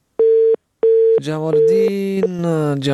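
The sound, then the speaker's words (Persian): A busy tone sounds after a caller's line to a radio phone-in drops: two steady, mid-pitched beeps with a short gap between them, then a voice starts speaking loudly over the line. “تماس قطع شد، نمیفهم که چرا. ای کاش قطع نمیشد.”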